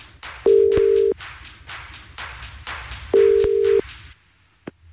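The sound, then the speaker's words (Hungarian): Ringback tone of an outgoing telephone call placed from a radio station to a contest winner: two steady, even tone bursts well apart over a rhythmic background, followed by a brief click near the end. “Halló, szia, én a Petőfi Rádióból csörgök.”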